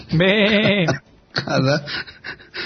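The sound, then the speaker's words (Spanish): Human voice imitating a sheep bleat: two wavering, nasal bleats with a shaky vibrato, the first longer than the second, loud and clear. “es que ese B es mucho más de oveja.”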